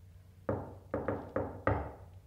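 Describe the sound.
Knocking on a door: five faint, hollow raps in an uneven rhythm, two close together in the middle, heard alone.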